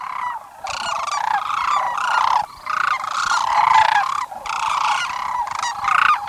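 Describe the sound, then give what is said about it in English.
Sandhill cranes give rich, rolling calls in spring courtship before migrating north to nest. Many overlapping, loud, trumpeting calls run almost continuously, with a few brief pauses. “The elegant sandhills will leap and dance a few days more before migrating north to nest.”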